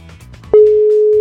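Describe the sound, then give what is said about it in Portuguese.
A telephone tone sounds while a call is being placed: a single steady electronic beep starts abruptly partway through and holds at one pitch until the end. “Bora, tá ligando. Vamos ver. Vou deixar chamar mais duas vezes. Mais uma.”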